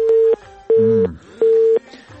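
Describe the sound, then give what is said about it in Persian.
A telephone busy tone after a call was cut off: three steady, evenly spaced beeps of equal pitch with brief gaps between them and faint sound underneath. “په اواز کښې ستونزه وه خو بالاخره معلومه سوله چې تلیفون یې بېخي قطع سو”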